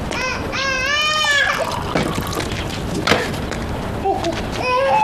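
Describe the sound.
A baby, nearly one year old, cries in wavering, high-pitched wails, one long bout followed later by a shorter cry, with voices heard between them.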